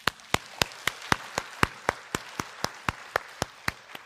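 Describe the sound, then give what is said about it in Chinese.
A church audience claps together in a steady, even rhythm, with many sharp, crisp claps at a quick regular beat and no voices. “这勇敢，咱们给他们一个喝彩好不好？”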